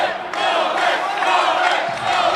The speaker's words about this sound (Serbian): kojeg je tokom davanja izjave za RTS u jednom momentu prekinulo i burno skandiranje srpskih navijača sa tribina centralnog terena u Parizu.